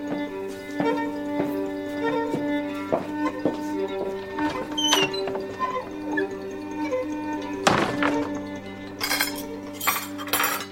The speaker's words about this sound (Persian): عاطف توی بشقاب برای ناصر برنج میریزه.